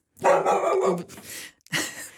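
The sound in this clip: A dog barking in a radio studio: a drawn-out, harsh bark-like call, then a short pause and a second, briefer bark, both fairly loud against silence.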